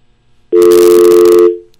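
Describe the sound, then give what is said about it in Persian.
A single steady telephone tone follows a dropped phone call. It sounds loud and continuous for about a second, then cuts off and fades quickly. “فکر کنم که تماس ما با آقای سعید زاده قطع شد.”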